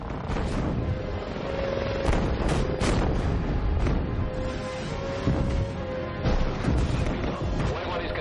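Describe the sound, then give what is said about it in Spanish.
Missile explosions roar in a battle scene from the 2009 science-fiction film Avatar. Several loud booming bursts rise out of a continuous rumbling roar, with voices speaking over the din. “El jefe mira horrorizado. Una explosión lo derriba.”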